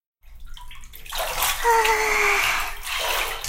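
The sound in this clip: Water splashes and sloshes in a small bathtub as someone moves about in it, starting after a brief quiet moment and building into steady, fairly loud splashing.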